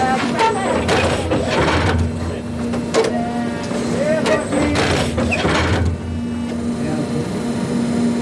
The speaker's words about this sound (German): So lange fährt das Stichfahrzeug der italienischen Spezialfirma 24 Stunden am Tag hin und her, bis alle Fasern gesetzt sind.